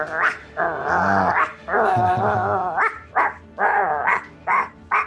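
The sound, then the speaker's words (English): Dogs snarling and growling in a roleplaying game scene: long, throaty rumbling snarls fill the first few seconds, followed by a run of shorter, sharper growling bursts, with no talk. “The dogs are snarling and dripping and...”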